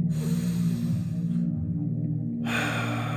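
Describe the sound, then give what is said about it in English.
A deep breath drawn in during a guided relaxation exercise, heard as airy breath noise over a steady, sustained low drone, with a brief lull before the breathing sound returns. “Now breathe in.”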